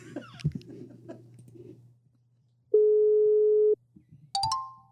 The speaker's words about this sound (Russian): Вот, алло. Вот и ушла связь.